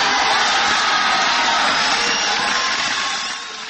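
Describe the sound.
Sustained ovation from a large crowd during Ronald Reagan's speech addressed to Gorbachev, a dense, steady roar of applause and cheering that eases slightly near the end.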